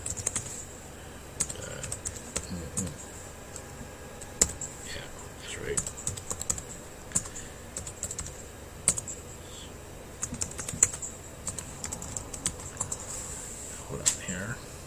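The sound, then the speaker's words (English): Someone types on a computer keyboard, an irregular run of many light clicking keystrokes with occasional louder taps and brief pauses, fairly soft throughout. “I gotta type it in first.”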